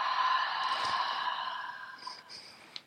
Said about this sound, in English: Take a nice gentle breath in and out.